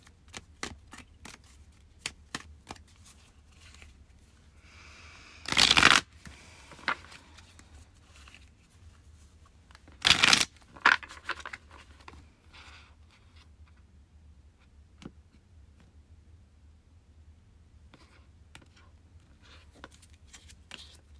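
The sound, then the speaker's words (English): A deck of tarot cards being shuffled: two loud riffle bursts stand out amid soft taps, clicks and card handling, with no talk. “Now we're going to pull some cards for the week ahead and see what needs to come up for us.”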